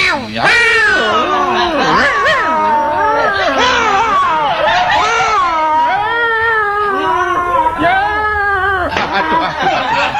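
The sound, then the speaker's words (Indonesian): Cats fighting in a village let out loud, wavering yowls and screeches, their pitch sliding up and down in a continuous, agitated stream with no pause. “Wis kucing bengkarokan keluar.”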